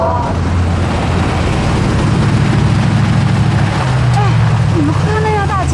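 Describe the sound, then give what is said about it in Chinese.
A car belonging to the Chang Gung group drives toward a group of people, giving a low, steady engine rumble while voices talk over it. “像整个金海就这一辆哎， 谁的车？ 长庚集团的， 还往我们这边走。”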